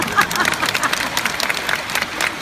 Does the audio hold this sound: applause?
yes